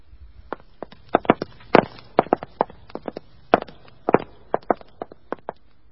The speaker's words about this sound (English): Wait. I fancy I heard someone on the stairs. Someone on tiptoe.